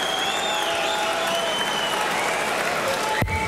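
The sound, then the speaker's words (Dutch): Darts crowd at the Slovak Darts Open applauding and cheering a player who needs 138 to finish. A steady, dense wash of clapping and crowd noise runs throughout, with a commentator talking over it and a sharp click near the end. “Het publiek gaat er nog even achter staan.”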